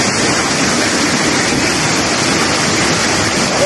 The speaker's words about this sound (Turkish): Azgın sular motosikletleri birer birer sürükledi. Kuryeler durdurmaya çalıştı ama akıntının gücüne engel olamadı. Motorlar su götürüyor.